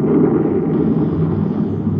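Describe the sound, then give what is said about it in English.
A spaceship's nose rockets fire with a deep, roaring blast that holds as a loud, steady rumble with no breaks and no voices. “I'm going to fire nose rockets and apply the repeller ray.”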